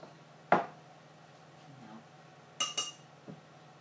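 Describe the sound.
A spoon clinks against a dish as spoonfuls of mustard are added in a home kitchen. A few short, bright clinks are separated by quiet pauses, the first the loudest.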